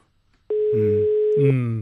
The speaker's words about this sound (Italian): Squilla il telefono della Zanzara.